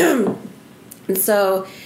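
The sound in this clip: A person clears their throat because of a tickle, a short voiced rasp that is clear and close and comes in a couple of quick bursts.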